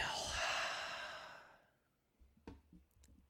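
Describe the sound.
A deep breath drawn in slowly, a soft, airy rush that swells and then fades over about a second and a half, quiet and alone, followed by a few faint small sounds.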